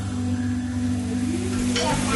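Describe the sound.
Food sizzles loudly and steadily in a pan as a family cooks at home in West Palm Beach. The frying hiss is continuous, with faint tonal hums running underneath.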